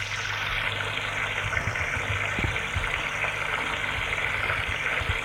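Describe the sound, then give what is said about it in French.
Water runs from a tap into a bathtub in a steady, dense rushing hiss that stays constant and fairly loud throughout, with no other sounds standing out. “Il a envie de prendre un bain, entre dans la baignoire et fait couler l'eau.”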